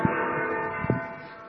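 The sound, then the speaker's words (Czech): Church bells ringing at a church, heard as faint, sustained humming tones that hang in the air, with a couple of brief stronger strikes rising out of the steady ring. “U kostela zvoní zvony.”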